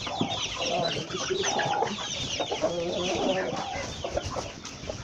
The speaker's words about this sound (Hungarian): Nem tudom, miért van itt a kakas.